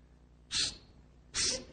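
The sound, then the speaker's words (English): A voice imitates a king cobra's hiss with two short, sharp hissing bursts separated by a brief pause, fairly faint and alone. “And the snake, the king cobra, just rose up and spread its hood, and we were literally this far away. And it started to flick its tongue out, hiss, psst, psst,”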